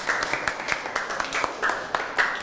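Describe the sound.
Schoolchildren in a classroom applaud a classmate: a brisk, uneven patter of many hand claps at moderate loudness, with no voices over it.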